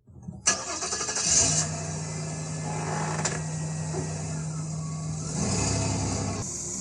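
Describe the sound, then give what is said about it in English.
An old car nicknamed Anglebox starts up: the starter cranks briefly, then the engine catches and settles into a steady, low, rumbling idle that swells slightly louder toward the end. “Right, here goes. Start first time, Anglebox.”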